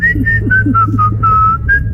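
A person whistles a cheerful tune, a steady string of short, clear, high notes that step up and down in pitch, loud and without talk.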